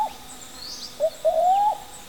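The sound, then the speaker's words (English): Brown cuckoo dove calling in a rainforest: a short soft note, then a longer, gently rising whoop, low and mellow, with faint higher bird calls behind. “Today we're visiting a rainforest. That's the gentle call of the brown cuckoo dove.”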